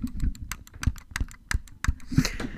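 Clicking of a computer mouse wheel pressed as the middle button: many sharp, dry clicks in an uneven rhythm, fairly loud and with no voices.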